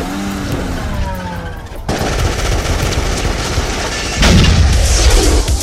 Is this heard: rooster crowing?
no